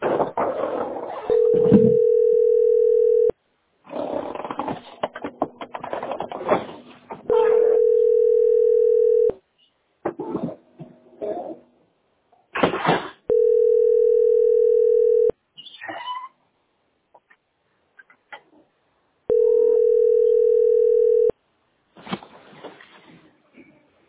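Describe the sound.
A steady telephone dial tone plays in four long, loud bursts while someone places a call about having no hot water. Noisy, crackling stretches of handling sound separate the bursts.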